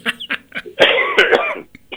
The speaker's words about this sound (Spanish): Ya, perdón la tos, ¿no? Pero no puedo evitar.